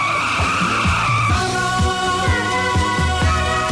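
A motorcycle engine roars as the bike arrives, loud and unbroken, its revs rising again and again over a dense, gritty rumble.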